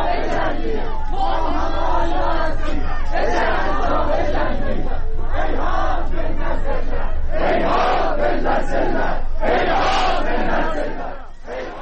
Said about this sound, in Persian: مردم به ترکی شعار میدن که آذربایجان چنین ذلتی رو تحمل نمیکنه و صدای اونجا رو میشنویم.